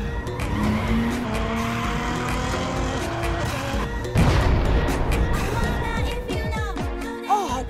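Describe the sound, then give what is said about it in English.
A car speeding too fast skids with screeching tyres, and the tyres blow out. A sudden loud burst cuts in midway, followed by more engine roar and squealing. “Dude, I just totally blew my tires. Why were you even going so fast?”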